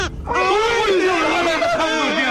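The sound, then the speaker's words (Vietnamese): A newborn baby cries just after delivery, in the moments after it was not breathing. After a brief noisy onset comes one loud, sustained, high wail with a wavering pitch that slowly drifts. “Ôi, nó khóc rồi, khóc rồi. Sống rồi.”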